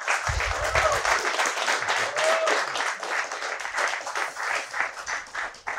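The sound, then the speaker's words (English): Audience applause welcoming a guest onto a talk show about music recording. Sustained, dense clapping runs throughout, with a brief low voice near the start. “So put your hands together. Please welcome my guest Stephen Hart.”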